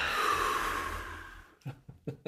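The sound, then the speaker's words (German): Slow breathing in and out during a guided breathing exercise: one long, drawn breath of soft rushing air, followed by a few short breathy puffs, with no talk. “Einatmen. Und ausatmen.”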